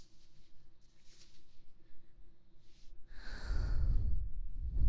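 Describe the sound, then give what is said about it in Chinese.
Heavy breathing: a few soft, airy breaths, then a louder, rumbling breath that swells and holds through the final seconds. “我感觉出来你的呼吸好重啊”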